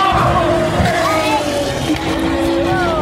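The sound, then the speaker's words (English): A V12 Valkyrie race car in the top class of an endurance race passes by, its loud, high-pitched engine wail sustained under a man's talk. “There it is, the Valkyrie. Ah, love that sound. Nice to have a V12 in the top class here.”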